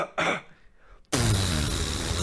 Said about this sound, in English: when you try to hide a fart with a cough, and he goes,